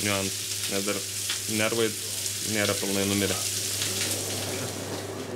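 Fish sizzling skin-side down in a pan in a restaurant kitchen, later turned to cook about six more minutes on the other side. A steady, moderately loud frying hiss continues throughout over a low, constant hum.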